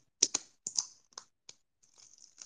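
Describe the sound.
A package wrapper is torn open in a quiet unboxing: several sharp, crisp crackling tears, then softer scattered rustles. No one talks.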